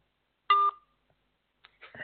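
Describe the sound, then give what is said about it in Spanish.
A telephone tone sounds as a call hangs up: one short electronic beep, then near silence, followed by a few faint, brief sounds at the end. “Bueno, se me ha colgado la llamada, esto ya.”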